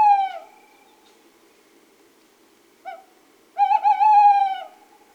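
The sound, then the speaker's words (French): A male tawny owl hoots: an opening hoot, a long silence, a brief soft note, then a loud, wavering, quavering hoot that trails off. “C'est une chouette hulotte. Bravo. Et là, c'est Monsieur Hulotte qui chante.”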